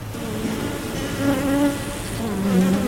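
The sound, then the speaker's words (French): Honeybees buzz inside an opened beehive, one of six hives, with smoke puffed into its top. A loud, dense, continuous drone carries wavering hum tones and no voices. “On arrive, on ouvre l'une des 6 ruches. Je remets un peu de fumée dans le haut au moment d'ouvrir le dessus.”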